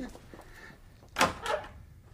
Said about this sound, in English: Open the kitchen door